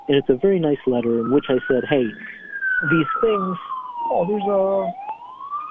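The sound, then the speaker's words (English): A fire truck siren passes, its wail sweeping slowly up and then down in pitch and starting to rise again, sounding steadily beneath continuous talking. “fire truck passing by. Yeah, I can hear it, yeah. It's okay. I apologize for that noise.”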